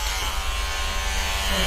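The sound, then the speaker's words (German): An electric shaver buzzes through thick beard hair. The buzz is continuous and even, with a dense, raspy tone that holds at a steady level throughout, with no voices over it. “Da muss ich an die Maschine. Meine Barthaare sind zu dick.”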